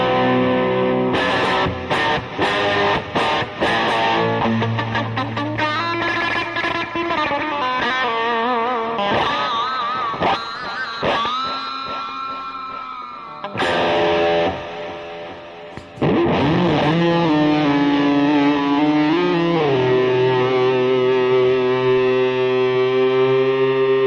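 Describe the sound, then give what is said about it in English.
Kramer electric guitar played through a Big Muff clone fuzz pedal, heavily distorted and thick, ringing out sustained chords and single notes with several sharp strummed attacks and wavering, bent notes, loud and steady with no voices. “This guitar is awesome, you guys. Again, another Beretta special. Kramer.”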